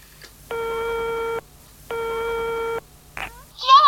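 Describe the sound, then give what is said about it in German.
Telephone line signal in an improvised horror radio play: two long, steady buzzing tones with a pause between, then a short click and the start of a voice. “So, muss ich erstmal Mathilde anrufen und Heini doch nicht.”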